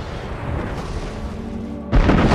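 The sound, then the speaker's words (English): Explosions blast great holes in a planet, producing a continuous heavy roaring rumble that breaks into a louder, sharper blast near the end. “Great holes are blown out of the planet, which glows red hot beneath its charred surface.”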